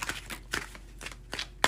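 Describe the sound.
A tarot deck is shuffled in several quick, papery riffles and soft slaps that come in uneven bursts, ending with one sharper snap.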